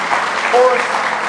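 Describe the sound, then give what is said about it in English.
An audience claps in praise during a worship service, producing dense, steady applause that holds evenly for the whole stretch, with a brief tonal vocal sound rising partway through. “Give him one more hand clap of praise if you love him with all your heart.”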